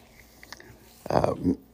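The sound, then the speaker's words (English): Gnawing and biting of a puppy chewing a slipper: a few faint clicks, then a denser burst of chewing near the end. “So if you hear some gnawing going on, that's the puppy chewing the slipper.”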